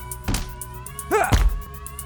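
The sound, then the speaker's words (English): A hard blow strikes someone on the forehead as a dull thump, then a second, heavier thud follows, with a short vocal grunt between them over a faint tonal background. “I gave him a cut on his forehead. He's bleeding. I've never hit someone so hard.”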